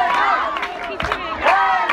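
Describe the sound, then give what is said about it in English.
Excited crowd cheering and shouting in the bleachers at an Afghan Women's Soccer League championship match, a dense, continuous roar of many voices that swells near the middle and again toward the end. “The crowd in the bleachers are excited.”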